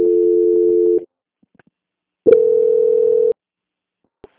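Telephone transfer tones while a bank call is on hold: two long, steady mid-pitched beeps, each about a second, separated by a silent pause, with a faint click after.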